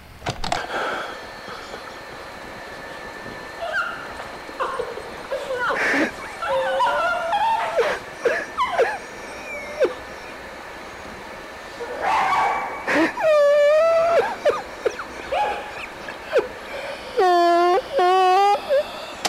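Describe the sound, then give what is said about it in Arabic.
A dog whimpers, whines and gives short yips and barks, recorded on an old tape. High, wavering cries come in scattered bursts over a steady background hiss and hum that lasts throughout. “والدليل على ذلك انه كلبها سومي لسه معاه، هتسمع صوته على الشريط. خلونا نسمع.”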